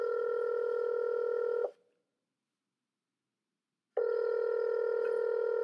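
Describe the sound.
A telephone number being dialed: two long, steady electronic tones separated by about two seconds of silence.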